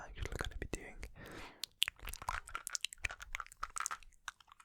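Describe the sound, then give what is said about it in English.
Close-up ASMR mouth sounds from chewing gum: many soft, wet smacks, clicks and squelches in an irregular rhythm, quiet and without talk. “ASMR mouth sounds with chewing gum extra”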